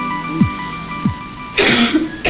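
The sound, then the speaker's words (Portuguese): Coughing after putting on a glove during an allergy test: a few short, harsh coughs followed by a louder, longer burst, over a steady faint background tone. “Começou a tossir depois que a gente botou a luva.”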